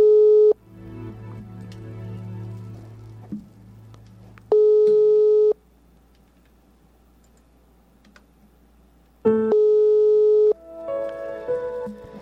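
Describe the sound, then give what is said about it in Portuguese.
Steady electronic phone tones sound while a call is placed, with a few flat, level bursts about a second long separated by pauses of several seconds and softer background sound between them. “Chamando está, não sei se ela irá atender.”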